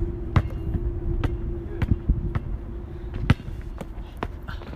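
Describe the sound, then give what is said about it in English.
A basketball dribbled during shooting practice: a string of sharp, thumping bounces in an uneven rhythm, with a low steady hum underneath. “Don't dribble too hard. This too hard, yeah.”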